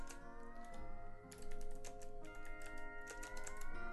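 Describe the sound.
Rapid typing on a computer keyboard while writing dialogue: a dense, irregular stream of quick keystrokes over a steady, sustained tonal background.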